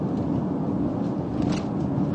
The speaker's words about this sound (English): if you can put up with the noise that my car makes the whole time